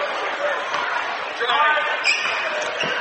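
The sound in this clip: A basketball is dribbled slowly across half court during a game, with soft, regular bounces under a commentator's talk and steady crowd noise.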